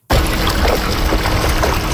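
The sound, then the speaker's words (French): Water splashing and pouring as researchers lift young Fraser River salmon, only a few centimetres long, from the river with a fine net; a loud, continuous rush starts abruptly and runs throughout. “Des chercheurs utilisent un filet fin pour sortir de l'eau de jeunes saumons quina.”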